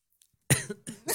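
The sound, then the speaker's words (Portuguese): Coughing from a person still recovering from the flu: a short bout of a few harsh, dry bursts, the first the loudest, heard alone without speech. “Deu até tosse.”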